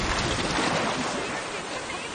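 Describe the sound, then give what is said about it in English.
Water lapping over the edge of a boat, a steady rushing, splashing wash of fairly even loudness that fades slightly near the end, with no voices heard. “Ew, my feet are getting wet. Water laps over the edge of the boat. Are we sinking?”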